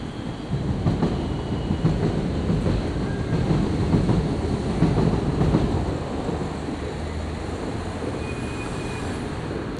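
A train rumbles past on rails in an urban square in Lyon. A dense, steady roar with rough clatter builds in the first second and holds loud for the rest, easing slightly toward the end, with no talk.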